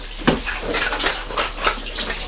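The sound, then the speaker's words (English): Hands are washed under a running tap: a steady hissing rush of water with a few louder splashes, and no voices. “Just a moment, let me wash our hands.”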